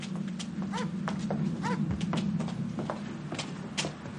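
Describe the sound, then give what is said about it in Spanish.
Several people's footsteps climb a stone stairway surrounded by vegetation, making many faint, irregular taps and scuffs over a steady low hum. “Suben por una escalera de piedra rodeada de vegetación.”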